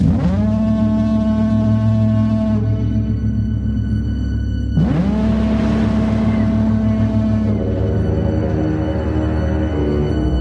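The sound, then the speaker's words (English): Deep foghorn blasts from the trailer for the film The Lighthouse: two long, sustained horn tones rich in overtones, separated by a short gap, over a constant low droning rumble. “Okay, here's a trailer for The Lighthouse, and we're not going to spoil it, so don't go anywhere.”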